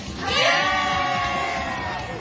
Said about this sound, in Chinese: 青少年特区的朋友大家好，欢呼声之后呢，我们就要正式的进入节目了啊